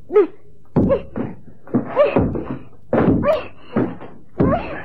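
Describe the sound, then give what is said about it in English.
A head knocks against a wall in a series of dull, irregularly spaced thuds, with short voiced sounds mixed in among the knocks. “Perhaps if I knock my head against the wall like”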